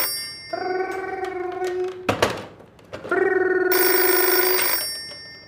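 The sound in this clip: Telephone ringing on a call placed to a call-in line, two long electronic rings with a buzzing harmonic tone, separated by a short crackly burst of line noise, loud and without talk.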